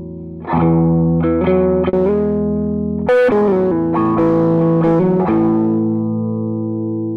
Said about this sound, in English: This is the MIC-DSP KD1 APB plugin, and it utilizes the real analog saturation circuits within our analog processing box to provide the beautiful sound of analog saturation. Here it is on this electric guitar.